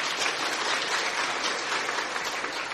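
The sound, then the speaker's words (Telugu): Dense, steady applause from an audience after a dramatic Telugu verse recitation portraying anger, continuous and loud for the whole stretch with no talking. “ఎందుకు చప్పట్లు కొట్టారు?”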